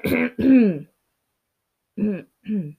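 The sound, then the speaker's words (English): Throat clearing by a person with mucus in the throat: two pairs of short, gravelly, voiced rasps separated by a second of silence, moderately loud and without other talk. “sorry, I have like mucus in my throat right now. So like I'm keep on clearing it”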